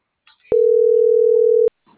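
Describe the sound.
A telephone busy-signal tone after a call was cut off: one loud, steady beep lasting just over a second, with faint rustling before and after.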